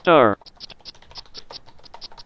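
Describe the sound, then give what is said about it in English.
Someone types a password on a computer keyboard: a short, loud electronic tone sounds first, followed by many quick, light key clicks in an uneven rhythm. “So let's go ahead and type in my password and get started.”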